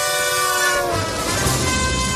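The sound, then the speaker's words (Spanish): A moving train sounds its horn in a loud, sustained multi-tone blast held throughout, over a low rolling rumble from the train itself. “el momento en el que Tom Cruise lucha contra uno de sus enemigos sobre un tren en marcha”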